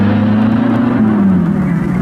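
A car engine drones loudly and steadily as the vehicle drives off fast, a continuous low roar whose pitch sags slightly toward the end.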